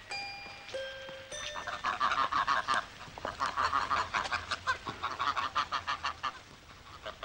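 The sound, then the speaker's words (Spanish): Ducks quack in a rapid, loud series of honking calls that repeat many times in an uneven rhythm. Three brief steady tones sound at the start, before the quacking begins. “Me gustan los patos. Los encuentro raros.”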